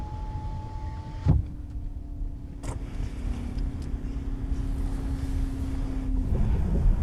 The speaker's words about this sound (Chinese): 嗨，红旗。 在呢。 副驾驶车窗关一下。